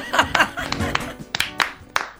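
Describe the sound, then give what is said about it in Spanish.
Scattered audience clapping on a television show, with sharp separate claps mixed with laughter and voices talking over them. “Muy bien este aplauso.”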